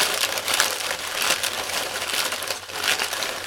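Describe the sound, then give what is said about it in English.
Paper slips rustle and crinkle continuously as a hand rummages for a slip in a prize draw, a dry, crackling texture that swells and fades without pause. “Going back in. Number two.”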